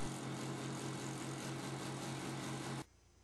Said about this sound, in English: Then mount the wheel on your vertical sander and rotate for a perfect circle.